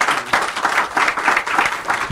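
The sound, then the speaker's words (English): Applause from an audience welcoming a guest on stage at a live business event, steady and dense clapping that holds at an even, fairly loud level throughout without fading. “So, folks, please give a warm welcome to David L. Cohen of Comcast.”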